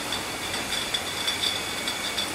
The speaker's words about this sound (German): Zurück in der Ketchup-Abfüllung bei Werder Feinkost. Ein Vakuumheber fährt alle paar Sekunden neue Glasflaschen unter die kreisförmig angeordneten Füllrohre.